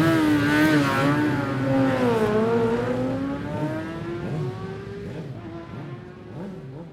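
Racing motorcycle engine as a rider sets off on a road race: a loud, continuous buzzing drone whose pitch dips and then climbs slowly and evens out, with no talk over it.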